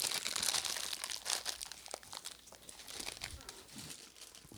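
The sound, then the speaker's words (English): Crackly crunching and crinkling from biting into a homemade Rice Krispie treat, a dense, chewy, slightly sandy batch. The rustly texture continues steadily for several seconds with no talk. “But the first bite was good. All right. Well, I'm taking a bite.”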